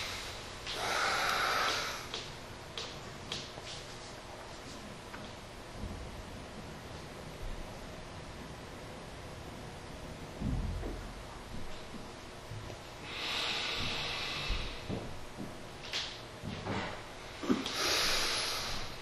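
Breath forced out through the left nostril in a single-nostril breathing exercise, heard as a few long, airy rushes with quieter stretches between them and no talking.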